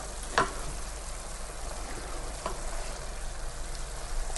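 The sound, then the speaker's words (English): Minced meat frying in a pan gives a steady, faint sizzle, a continuous hiss with a few sharp pops standing out. “Now the mince is starting to cook nicely.”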